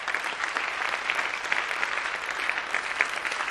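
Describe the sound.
Warm applause from an audience honoring a professional coach: dense, steady clapping that holds an even level for the whole clip, with no voices over it.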